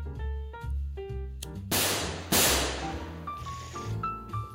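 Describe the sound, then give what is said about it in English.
Two sharp, loud gunshot-like bangs from a sound effect crack out in quick succession near the middle, set against a backdrop of steady tonal music that continues before and after. “Fucking finally a gun gets shot off on here.”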